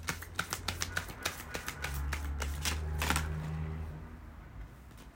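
Oracle cards are shuffled: a run of crisp, separate snaps gives way to a denser, continuous riffle that gradually fades out.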